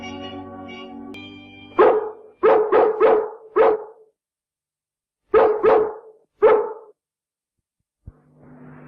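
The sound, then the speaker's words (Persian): Dogs barking at night in London: about eight sharp barks in two bursts, five then three, loud and alone with silence between, preceded by a droning tonal sound. “واق غروب؟ ولی عزیزم این فقط برای رد و بدل شایعاته. عزیزم این سریع ترین وسیلهی که میشه خبر فرستاد و اگه توله های ما یه جایی تو شهر باشن تمام سگای لندن خبردار میشن.”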